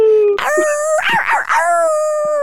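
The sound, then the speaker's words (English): A tiny chihuahua puppy howls along with a woman, long, high, wavering tonal cries that hold steady, then break into a tangle of overlapping wails before settling into a sustained note, loud throughout. “she's howling with her puppy. My adorable puppy howls, and it's so cute coming out of a teeny tiny chihuahua.”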